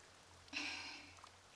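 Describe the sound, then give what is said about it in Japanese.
Soft patter of light rain falling from the sky, a faint hissy shower that swells in suddenly, then gradually thins and fades, with a low steady hum underneath. “パラパラと空から落ちてくる雨に触れても濡れないね。”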